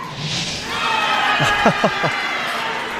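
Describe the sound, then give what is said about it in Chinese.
A crowd cheers at a curling match with a sustained, moderately loud roar. A few rising shouts stand out briefly in the middle, then it settles back into the steady crowd noise. “这声欢呼啊是刚才德罗普金又一次秀一下自己的肱二头肌”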